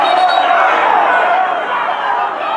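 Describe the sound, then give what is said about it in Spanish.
Angry football stadium crowd protesting at the referee stopping play: a dense, unbroken roar of many voices fills the whole stretch at high volume, with a commentator talking over it. “Se enoja el público con Quiroz porque detiene bastante las acciones.”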